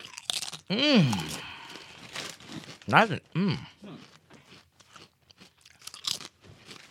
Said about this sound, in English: You know what these taste like? Not potato chips. Like restaurant homemade chips more.